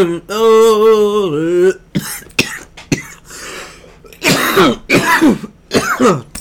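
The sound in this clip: Someone with a dry, parched throat clears it in a few rough, raspy bursts, preceded by a drawn-out voiced sound and some short clicks and breaths.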